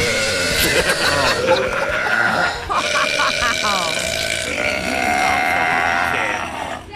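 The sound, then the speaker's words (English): Very loud burps in a montage from a woman who holds the record for the loudest burp by a woman: long, rasping, croaking belches follow one another with little pause. “I always wanted to be a really loud burper. And she starts with a little montage of some of her best bits. Here she is in action.”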